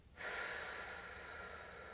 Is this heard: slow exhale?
yes

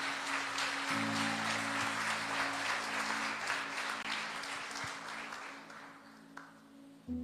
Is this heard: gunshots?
no

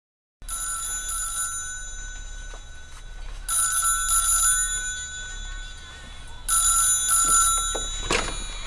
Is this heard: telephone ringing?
yes

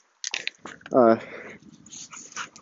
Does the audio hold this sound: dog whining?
yes

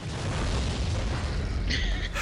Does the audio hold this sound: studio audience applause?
no

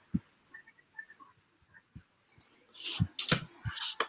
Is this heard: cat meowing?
no

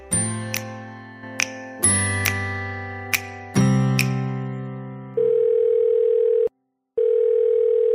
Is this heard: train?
no

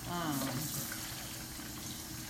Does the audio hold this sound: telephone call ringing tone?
no

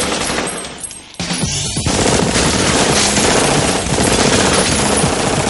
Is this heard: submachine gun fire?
yes

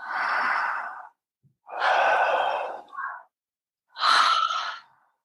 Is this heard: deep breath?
yes

